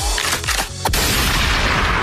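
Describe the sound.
A shotgun firing, in an ad for dove hunting gear: one sharp, loud blast near the middle, set in a dense wash of noise that continues to the end.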